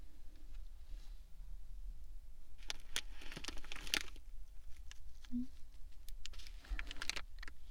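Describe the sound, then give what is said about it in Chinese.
Crinkling and tearing of a plastic packaging bag being pulled open, with quiet bursts of crackly rustling noise coming in uneven clusters. “嗯，现在把包装袋撕开。”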